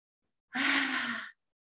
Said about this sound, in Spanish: Y deja salir esa exhalación, liberando todas las emociones que sientes.